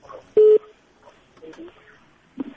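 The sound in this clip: A single loud telephone beep, a steady mid-pitched tone lasting about a fifth of a second, cuts in near the start of a phone call, with faint voices talking before and after it.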